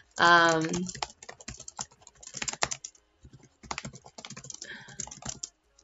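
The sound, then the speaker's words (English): Computer keyboard typing comes as bursts of rapid, light clicks, with a person talking at the same time. “Sorry, it's so hard to talk and type at the same time.”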